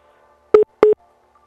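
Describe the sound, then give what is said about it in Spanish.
Telephone busy tone after a dropped call, two short beeps of a steady mid-pitched tone separated by a brief gap over near silence. “bueno, se cortó la comunicación. Vamos a tratar de recuperarla en ese momento. Si eres tan amable, Toño, de volver a marcar a nuestro corresponsal”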